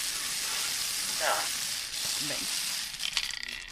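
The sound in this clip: A lottery drum spins to draw a numbered topic, giving a low rattling whir that ends in a burst of rapid clicks and ticks. Brief voice sounds come in earlier.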